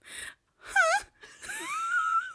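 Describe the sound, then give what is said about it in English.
A voice imitates the moaning of an anime girl with three breathy, high-pitched vocal bursts. The middle one wavers up and down, and the last slides upward into a long, strained whine. “If you ever know how like the females in anime shows sound when they're like”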